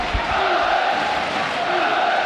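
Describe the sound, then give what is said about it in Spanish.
Football crowd at Mendizorroza stadium cheering on Alavés, a sustained massed roar of chanting voices that holds a steady level throughout. “despedida del público en Mendizorroza, animando a los suyos de cara a ese vital encuentro. Así suena Mendy.”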